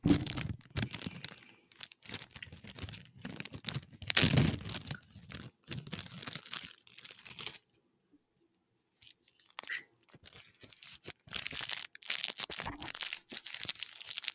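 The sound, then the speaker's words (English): The wrapper of a card pack crinkles and tears as it is opened, making crackly rustling bursts at a moderate level, with a short quiet gap midway before the crinkling resumes. “That crinkling sounds great.”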